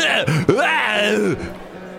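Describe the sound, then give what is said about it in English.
A man's voice mimics a father's repeated throat clearing and coughing at a nearby meal table, with a few rough, groaning voiced bursts and hacks in quick succession. “But the father of this family kept clearing his throat and coughing and clearing his throat.”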